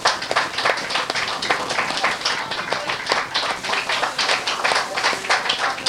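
An audience applauds a performer at a live show with many quick, uneven hand claps forming a busy, fairly loud rattle that rises and dips slightly but continues throughout.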